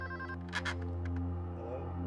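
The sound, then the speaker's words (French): A home telephone rings at about 2:30 in the morning: faint, steady electronic ring tones over a low hum. “Le 3 juin, soit trois jours après la disparition de Shari Fay, vers 2h30 du matin, le téléphone des Smith sonna.”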